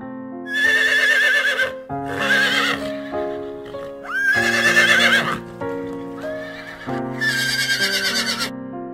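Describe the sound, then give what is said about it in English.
Horses neighing: several loud, shrill whinnies with a quavering, wavering pitch, each lasting about a second or more, separated by brief lower snorting sounds. “Horse.”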